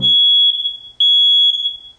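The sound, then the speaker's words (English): A smoke detector alarm sounds loud, piercing high-pitched beeps in a steady rhythm about one second apart. Two long beeps play, then a third begins, each with a ringing tail and no talking. “When was the last time you checked your smoke detectors?”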